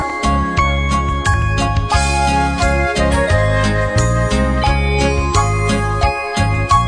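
Bells jingle steadily through a festive holiday tune, their bright tinkling layered over a full musical backing with a steady beat.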